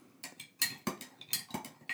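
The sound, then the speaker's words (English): A metal cocktail spoon stirs hot sauce and vodka in a glass, making a faint, irregular run of bright, ringing clinks and taps. “Let's give it a good mix just with the vodka. I feel like I want to make sure it's, homogeneous.”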